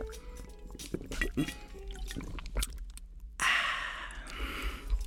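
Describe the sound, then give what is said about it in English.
Water is gulped close up, with wet swallowing and dripping liquid sounds and a soft breathy sigh, followed by a louder, rushing splash of water. “you hear the water? Hold on. Hear the gulping and everything.”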